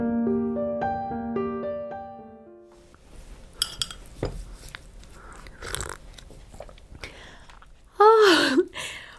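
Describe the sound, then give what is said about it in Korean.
Biting and chewing while people eat a home meal of doenjang stew and seasoned spinach. A few sharp, crunchy bites and soft mouth noises come after a short tonal passage at the start, with a brief voice near the end. “밥 먼저 먹어요”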